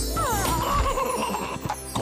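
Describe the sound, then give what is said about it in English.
Whinny of a magical winged Pegasus pony in an animated children's cartoon: one drawn-out, high, wavering neigh that stands clear and loud, followed by a few faint clattering knocks. “Instead of a trophy, we got you a magical Pegasus pony!”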